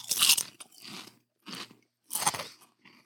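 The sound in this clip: Crunching of pizza-flavoured Pringles potato crisps as someone bites and chews, with several crisp, dry crackling bursts separated by short pauses. No voices are heard.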